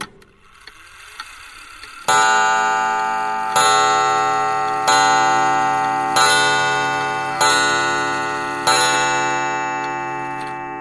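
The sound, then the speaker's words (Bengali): A clock on an outside veranda strikes midnight with a sweet but fairly loud chime. Faint ticking comes first, then six resonant strikes follow at a steady pace, each one ringing out and slowly fading before the next. “ঘুমটা ভাঙল একটা শব্দে, ঘড়ির শব্দ।”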